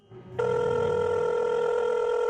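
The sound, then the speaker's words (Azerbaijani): Telephone ringing for a call: after a brief spell of faint low sound, a steady electronic ring tone starts and holds without a break to the end. “Onunla telefonda danışmalı oldum.”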